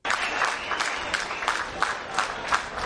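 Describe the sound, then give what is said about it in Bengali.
Applause greets migrants and refugees arriving by train from Hungary in Vienna, a moderately loud wash of many hands clapping with a few sharper surges of claps. “Hungary থেকে ট্রেনে চড়ে ভিয়েনায় আসা ওইসব মানুষদেরকে এভাবেই হাততালি দিয়ে স্বাগত জানান তাদের আগে যারা এসেছেন তারা।”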